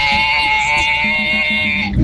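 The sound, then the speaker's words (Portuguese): A human voice imitates a bleating goat in heat, giving loud, wavering, nasal bleats, and closes with a calf-like call. “Tá aí, imitou um bezerro também no final. Meu Deus do céu. Um abraço pra você, meu querido. Cabrita no cio.”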